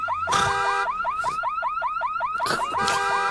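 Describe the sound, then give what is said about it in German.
A car alarm wails in a repeating pattern of quick, rising electronic whoops over a steady tone, loud and continuous, with a few noisy bursts mixed in. “Als in der Nähe eine Alarmanlage losgeht, schaut er neugierig aus dem Fenster.”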